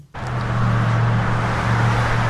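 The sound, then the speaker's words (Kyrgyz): Car traffic on the streets of Saudi Arabia: a steady, loud roadway rumble with a low engine hum that begins abruptly and stays even throughout, with no voices. “Сырттан карасаңыз, Сауд Арабиянын көчөлөрүндөгү автоунаа кыймылы дүйнөнүн башка өлкөлөрүнөн дээрлик айырмасы жок. Көнүмүш унаалар, көнүмүш тоуштар.”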